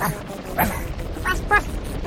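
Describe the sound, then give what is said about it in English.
A dog barks a few times in short, sharp bursts while creatures close in on it, the barks rising above a steady low rumbling background. “Robo Cloco dropped back and barked as the creatures grew closer and closer.”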